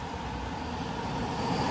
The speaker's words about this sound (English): Another little car.